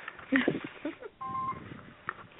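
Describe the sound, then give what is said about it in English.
A mobile phone sounding with a single short, steady electronic tone, faint and lasting a fraction of a second, set among soft muffled background noise. “My phone is sounding right now.”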